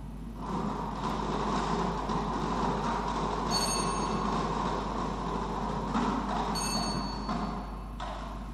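A lottery number drawing device is spun, producing a continuous rumbling, rattling whir throughout, with a couple of brief high metallic rings.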